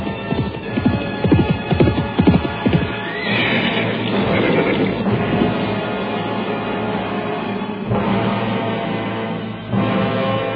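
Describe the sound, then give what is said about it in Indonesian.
Hoofbeats of a horse as its rider slows it on approach to a town boundary monument: rapid, sharp clip-clop for the first few seconds, then fewer, softer hoof strikes under a steady low rumble. “Mendadak, dia memperlambat lari kudanya, begitu melihat dua orang berkuda menunggu di tugu perbatasan kota.”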